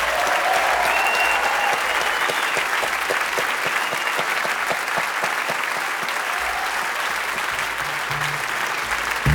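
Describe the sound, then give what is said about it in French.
Applause from a live jazz concert audience cheering a piano, double bass and drums trio at a radio studio concert hall in a tribute to a jazz bassist: dense, steady clapping that fills the whole stretch at an even, loud level. “le public fait du bruit pour Benny Green”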